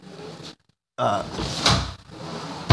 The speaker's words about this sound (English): I'm gonna be closing the door. I'm gonna be like simulating a door opening and closing, right?